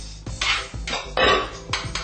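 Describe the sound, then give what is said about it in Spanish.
Stirring seasoning and vegetables in a pan: repeated scraping and rattling strokes of a utensil against the pan, several rough bursts in an uneven rhythm, fairly loud with no voices. “estamos listos para mezclarla con el sazón y los vegetales. Movemos un poquito aquí el sazón”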